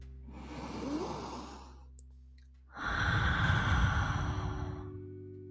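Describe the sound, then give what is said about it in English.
Deep breaths taken during a guided meditation: two long, airy breaths, the second louder and fuller than the first, separated by a brief pause with a small click, with no talk. “Let's take an inhale with that thought.”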